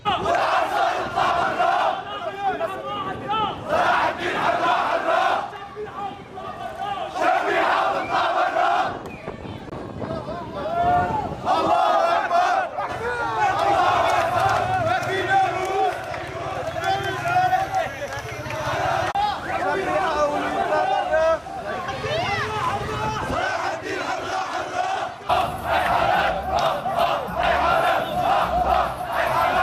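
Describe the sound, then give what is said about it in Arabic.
Protest crowd in Aleppo, Syria chanting slogans: many voices shout in loud, rhythmic unison that continues almost throughout, with a few short dips between chants. “هذا صوت الشعب، وكل أحياء حلب طيرة.”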